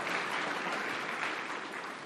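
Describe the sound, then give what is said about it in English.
A church audience applauds a staff member's ten-year anniversary during a service at Christ Our King. The clapping is steady and dense, at an even level from start to finish. “So that's, clap for him. Clap for him.”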